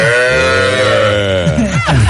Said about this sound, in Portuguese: O bezerrinho também. Ah, é bom, outro bezerrinho. Esse programa tem bezerro, é doido, não é?